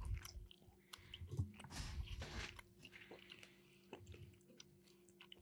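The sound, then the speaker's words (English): Someone faintly chews sticky barbecue, giving soft, irregular wet crunches and squishes with no talking. “that sticky barbecue from Bag of Bowls is delicious. So freaking good.”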